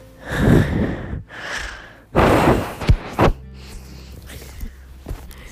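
Heavy breathing blown straight into a camera microphone: three loud, rough breath bursts, then a couple of sharp thuds and a quieter stretch.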